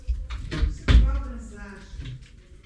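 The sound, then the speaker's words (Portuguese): A wardrobe is opened with a couple of dull knocks and a thud of its door, heard under people talking. “É, é, é, tô abrindo meu guarda-roupa igual um otário.”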